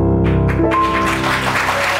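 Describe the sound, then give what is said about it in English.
Studio audience applause on a late-night television talk show swells in over sustained musical tones, then fills the rest of the moment as a thick, continuous roar of clapping. “Why are you applauding?”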